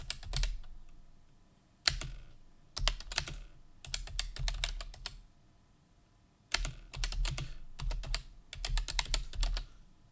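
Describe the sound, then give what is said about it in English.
Typing on a computer keyboard, with quick runs of clattering keystrokes broken by short pauses. The hesitant, uneven rhythm sounds like a slow typist, and the tapping is soft and heard alone. “Sorry, I cannot type. I type terrible.”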